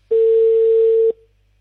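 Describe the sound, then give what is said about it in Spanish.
A telephone ringing tone sounds while a call is placed: one steady, pure, mid-pitched beep lasting about a second, then silence. “Ahí lo estoy llamando. Vamos a ver si atiende o no atiende.”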